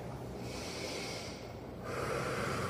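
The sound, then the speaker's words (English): A deep breath taken by a group holding hands during a grounding exercise: a steady, airy rush of breath that grows stronger partway through, with no talking. “We take a deep breath.”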